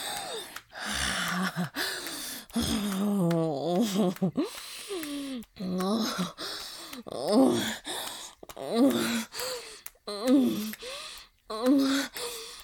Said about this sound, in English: Oh, you groan for me.